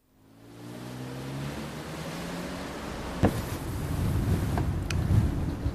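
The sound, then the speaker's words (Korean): Wind rushes through an open car window as the car crosses Hannam Bridge over a river: a steady, broad, rumbling roar that swells after the start and grows louder toward the end, with a few brief thumps and no voices. “창문 내렸어. 바람 느껴져? 어. 혹시 여기 강 근처야? 어, 맞아. 지금 다리 위 지나고 있어.”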